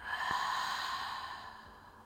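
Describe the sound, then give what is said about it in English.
A deep breath during a guided breathing exercise, drawn in through the nose and let out through the mouth: one long, airy, steady breath that slowly fades, heard alone with no talk. “And take a deep breath in, inhaling through your nose. And then a deep breath out, exhaling through your mouth.”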